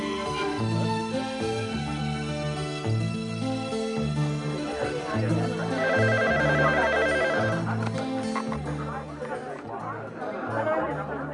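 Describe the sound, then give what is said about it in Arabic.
A telephone rings with a brief trilling burst midway, fairly faint beneath steady music and murmuring voices. “تليفون لسعادتك من روما من السفارة المصرية.”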